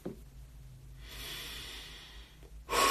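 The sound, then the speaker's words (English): Heavy breathing after a raised heart rate: a short puff, then a long airy breath, then a louder, sharper snort-like breath at the end. No talk is heard. “And now naturally, all I want to do is breathe. Because I've raised up my heart rate.”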